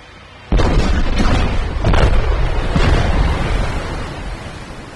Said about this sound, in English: The four torpedoes exploding beneath the Typhoon caused major seawater system flooding.